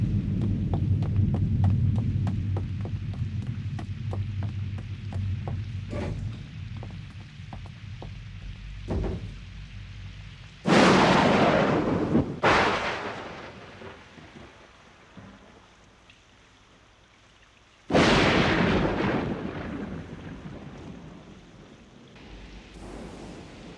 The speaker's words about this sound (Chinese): 老公，快点进去吧，暴风雨快来了。